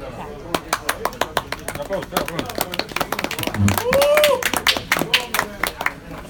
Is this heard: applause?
yes